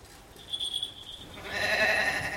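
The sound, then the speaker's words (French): A goat bleats in a drawn-out, harmonic cry that swells and grows louder through the second half after a quieter start. “Voici ma nouvelle chèvre, Blanchette.”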